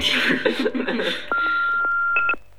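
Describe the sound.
Voicemail beep before a message is left: a voice is heard first, then a steady mid-to-high pitched phone tone holds for about a second before cutting off.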